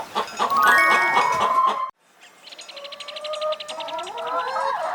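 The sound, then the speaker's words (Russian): A chicken clucks in a rapid run of short, evenly spaced pulses through the second half. Before that comes a loud, sustained chime-like tone that cuts off abruptly before a short pause. “Курица. Курица.”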